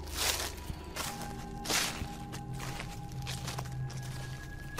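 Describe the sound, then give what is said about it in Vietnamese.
Rustling footsteps slowly approaching a house: a few soft, irregular crunching steps with quiet gaps between them, over a faint steady hum. “Có tiếng bước chân sột soạt đang từ từ tiến lại về phía ngôi nhà.”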